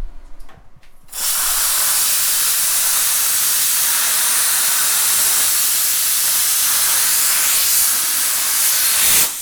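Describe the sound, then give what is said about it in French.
A cutter slices through metal up to 10 mm thick, giving a loud, harsh, continuous hiss. It kicks in after about a second and holds steady, unbroken, until it stops just before the end. “On a l'impression que le métal, c'est du papier. Ah, mais et ça coupe jusqu'à 10 mm d'épaisseur.”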